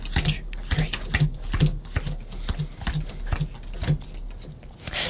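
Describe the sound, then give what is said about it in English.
Playing cards are counted out one at a time onto a table. A steady series of soft, crisp taps lands at an even, regular pace. “So, you have a pack of cards at home, play along. We need 10 cards. Count onto the table in front of you, 10 cards.”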